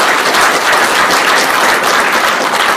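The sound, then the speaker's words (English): Loud, dense applause from a church audience at Grace Crossing Church welcoming newcomers. The clapping is steady and continuous throughout, with no voices over it. “Can we put our hands together and welcome all of our newcomers that are here today?”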